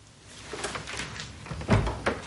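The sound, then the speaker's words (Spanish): A door swings shut with one solid, low thud, then a lighter knock just after it, over quiet background hiss. “Él cierra la puerta.”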